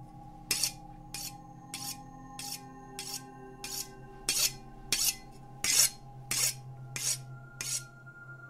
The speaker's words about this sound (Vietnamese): quả thật là tiếng mài dao quen thuộc, cái tiếng mài dao chặt thuốc của mẹ bao nhiêu năm qua